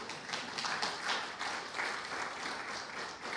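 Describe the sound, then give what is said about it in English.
A church audience applauds with steady, dense clapping throughout, without pauses. “You can give God a hand for that.”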